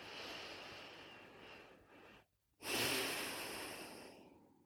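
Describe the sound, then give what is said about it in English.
Deep breathing during a seated, cross-legged breathing exercise: a long, airy breath sound, a brief silent pause, then another sustained breath that slowly fades. No one speaks. “Take a deep breath in to the count of five.”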